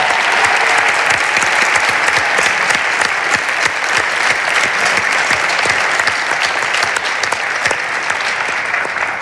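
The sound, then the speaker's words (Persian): Sustained audience applause in tribute to a late actor, a loud, dense, even roar of many clapping hands that holds steady for its whole length. “به یاد استاد خسرو شکیبایی یه دست خیلی قشنگه.”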